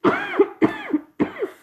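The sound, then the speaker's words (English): Three coughs, each a harsh throat-clearing burst followed by a second, shorter rasp, come in an even rhythm with brief pauses between them. They are fairly loud, with no other sound around them. “I'm trying to get it out of my throat.”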